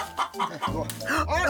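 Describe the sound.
Chickens cluck in a coop in a short run of quick, choppy calls, with voices mixed in.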